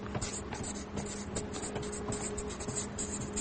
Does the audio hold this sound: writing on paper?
yes